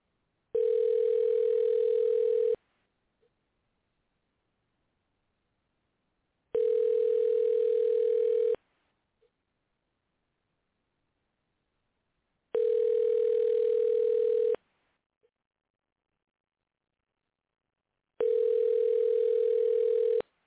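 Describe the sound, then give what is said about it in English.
Telephone ringback tone while placing a call: four steady, buzzy tones, each about two seconds long, separated by roughly four-second gaps of silence. “Let's see if he'll answer the phone.”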